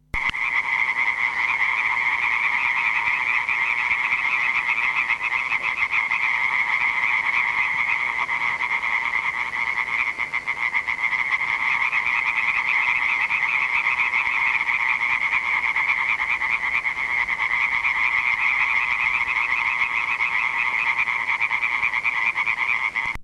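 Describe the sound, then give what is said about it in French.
Frogs and other amphibians croak at night in a breeding pond in garrigue country, forming a dense, unbroken chorus of rapid trilling calls that holds at a steady, fairly loud level throughout. “ces mares vont accueillir des dizaines et des dizaines d'amphibiens qui viennent là juste pour se reproduire. Et donc on va arriver dans une mare qui est complètement en effervescence, surtout la nuit. Écoutons justement une mare la nuit.”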